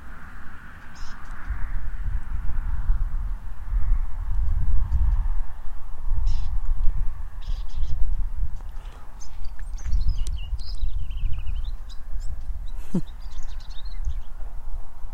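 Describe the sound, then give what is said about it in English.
Outdoor bird calls of an unidentified species: a few short, faint chirps and harsher caws scattered irregularly over a steady low rumble of wind and movement, with no talk. “I'm not sure what kind of birdie that is that's singing.”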